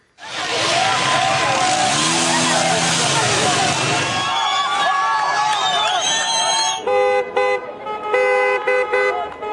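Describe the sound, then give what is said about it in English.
Car horns honk during street protests over soaring fuel prices. A dense roar of crowd noise and voices gives way to overlapping horn toots, followed by a rapid run of short, choppy horn blasts. “Here's the sound of some of those protests worldwide.”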